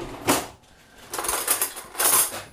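Metal cutlery clinks as a knife and fork are laid on a table with a green tablecloth for dessert. A few short clattering bursts are separated by quiet gaps, with no talking.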